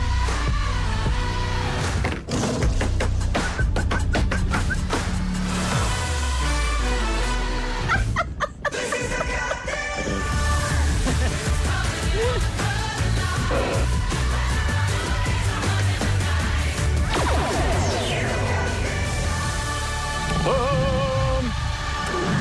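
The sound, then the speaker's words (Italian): Opening theme music of the Italian talk show Cattelan plays loud and continuously, with dense instrumentation and sharp percussive hits, briefly dropping out for a moment about a third of the way in before resuming at full strength. “Siamo pronti a iniziare, ragazzi, la nostra sigla è bella calda, non vediamo l'ora di aprire questa bella puntata di Cattelan.”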